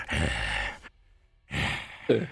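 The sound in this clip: A voice imitates a demon panting with two heavy, breathy exhalations split by a brief silence, the second ending in a short sharp catch of breath.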